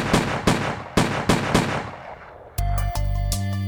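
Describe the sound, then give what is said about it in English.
Revolver gunshots fired at a sleeping man, a rapid series of sharp, loud cracks with short decaying tails, after which music begins. “She raised the revolver and shot him six times.”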